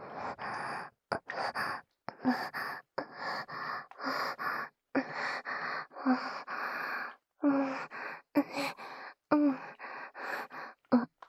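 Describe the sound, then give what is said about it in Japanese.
Heavy breathing in a quick, uneven rhythm of many short breathy gasps and pants, some partly voiced, each separated by brief pauses and fairly loud throughout, with no talk. “じゃあ、いっぱい深呼吸して。”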